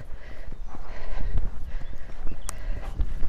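A horse's hooves trot and walk in a steady run of soft, even clip-clops. The footfalls carry on alone at moderate volume.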